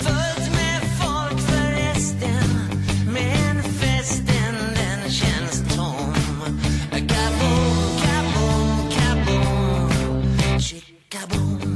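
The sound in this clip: A pop song from a band's latest album plays as full, steady band music with a driving beat and layered melody, continuous and loud until it drops away briefly near the end.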